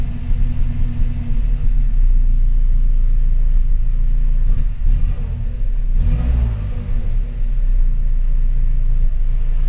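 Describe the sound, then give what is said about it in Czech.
A warmed-up Škoda car engine runs with a loud, steady low rumble while it is revved toward the rev limiter, with a brief surge in the engine note about two-thirds of the way through. “Tak co, bude už to prohřátý, abych si to mohl lajznout k omezovači.”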